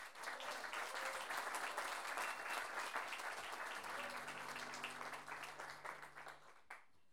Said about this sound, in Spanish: quienes por lo menos se merecen un gran aplauso de ustedes.